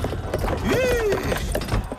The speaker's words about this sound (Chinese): 此时一位有钱人驾着马车来到回春药房。